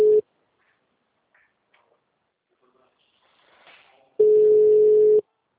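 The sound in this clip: Telephone ringback tone on an outgoing Portuguese-language sales call: a steady single-pitch tone, with a brief tail at the start and then one full ring of about a second after a long, nearly silent gap.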